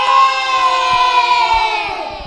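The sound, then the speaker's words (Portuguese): Children shouting and cheering together at a school Children's Day celebration. It is one sustained, loud group cry that holds steady and then tapers slightly toward the end. “Vamos mandar um grande abraço, um grande grito para todos os nossos ouvintes. Vamos lá, moçada, viva o Dia das Crianças!”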